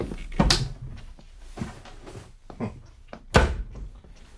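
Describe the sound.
A wardrobe door is handled in a series of wooden knocks and thunks, with the loudest near the start and near the end and softer clicks in between.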